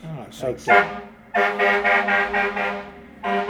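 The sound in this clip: A car horn toots several times in short, clear blasts with a steady, bright harmonic pitch. The blasts are separated by brief gaps.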